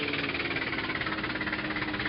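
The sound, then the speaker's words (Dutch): An old car engine, its vehicle sinking into loose sand, gives a rough, knocking rumble that holds at an even level throughout and does not cut out. “Het trouwe voertuig zakte tot aan de voorassen in het rulle zand weg, zodat de motor afsloeg.”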